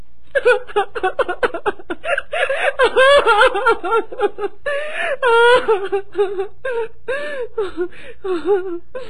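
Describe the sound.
A woman cries loudly in grief, with repeated wailing sobs whose pitch wavers and quivers, broken by choked catches of breath and whimpers, loud and sustained across the whole stretch.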